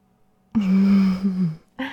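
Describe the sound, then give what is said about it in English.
A person's low, voiced groan held for about a second with a slight dip at its end, then the start of another vocal sound. “That groan was perfection.”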